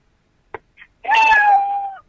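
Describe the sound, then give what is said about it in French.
A human voice imitates a cat's meow, giving one drawn-out, whining miaow that holds a steady tone and tapers off at the end. A couple of faint short noises come just before it. “Il fait miaule. Oui, il fait miaou.”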